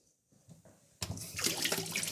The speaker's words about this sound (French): Je me lave les mains à l'eau bien bien chaude.